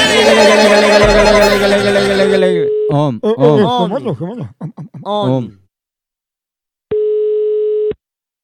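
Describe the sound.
A single telephone ringback tone as a call is placed: one steady electronic beep lasting about a second, following a stretch of voiced sound and a brief silence.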